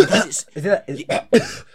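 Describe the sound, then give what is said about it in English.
A voice imitates loud throat clearing, as if hacking to bring up phlegm. It is a rapid series of short, rough, voiced rasping bursts with brief gaps between them. “he does this coughing thing, yeah. You know how some people, yeah, will be like, is he like trying to bring phlegm up or what?”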